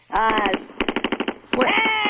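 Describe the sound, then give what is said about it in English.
Rapid machine-gun fire, a loud burst of many quick, sharp shots in a fast, even rhythm. “What was going on with the guns I just heard?”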